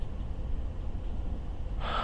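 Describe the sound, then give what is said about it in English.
A deep breath drawn in through the mouth: a short, breathy inhale near the end, rising out of a low, steady background hiss. “take a few really, really deep breaths in and out.”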